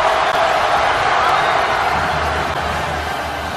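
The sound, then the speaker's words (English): Loud crowd roar as Temple students storm the basketball court after a 66-64 win over Villanova in Philadelphia, a dense, steady wall of cheering that holds without a break through the whole clip. “and with the noise you hear, the Temple students storming the court.”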